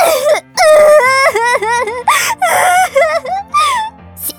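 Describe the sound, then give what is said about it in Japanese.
A person bursts into loud wailing and sobbing, with long crying phrases whose pitch wavers up and down, broken by short gasping pauses. “そんなことで急に泣くな。”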